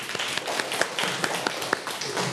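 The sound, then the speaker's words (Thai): Students in a class clap for themselves after a pen-passing game, with light, fairly quiet claps in a loose rhythm and a few sharper claps standing out. “ปรบมือให้ตัวเองหน่อย”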